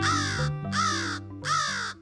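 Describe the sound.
Crow cawing: three harsh, raspy caws, each about half a second long, follow one another at a steady rhythm and are loud and clear.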